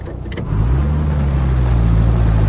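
A car drives at night. Its engine comes in after about half a second as a loud, steady low hum with slight wavering in pitch, and no voices are heard over it.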